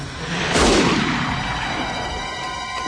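A single rifle shot: a sudden loud crack followed by a long, slowly fading rumble, with no voices.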